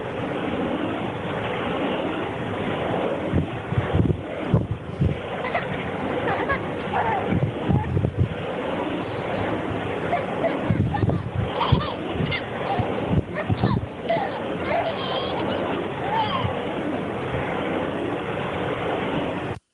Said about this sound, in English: this is just straight stuff recorded in a cemetery late at night. Yeah, you can hear the wind.